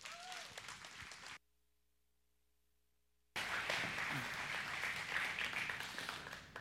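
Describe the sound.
A church audience applauds a guest speaker in two stretches of dense, steady clapping separated by a short silent gap, the second stretch louder and longer.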